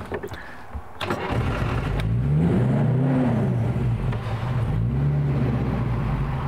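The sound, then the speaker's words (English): A vintage Rolls-Royce car engine starts in neutral with the ignition on and the hand throttle set. A few clicks come first, then the engine catches into a steady low idle with a brief swell in revs. “So we make sure it's in neutral. Turn the ignition on.”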